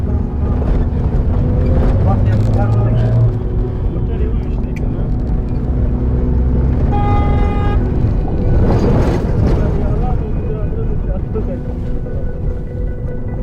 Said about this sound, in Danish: Og lyden af bilens brummende motor får pulsen til at sænke sig en smule.